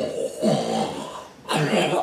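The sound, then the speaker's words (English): A voice imitating snoring, mimicking a character asleep in manacles: two drawn-out, rasping snores, each a rough, breathy rumble, separated by a brief dip in loudness. “they grab Sertos and put manacles on him, and he is audibly snoring.”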